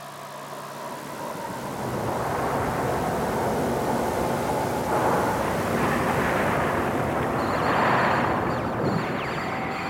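A spacecraft landing on the sun: a loud, sustained roaring rumble that swells after the first couple of seconds and holds steady, with a thin high whine emerging near the end.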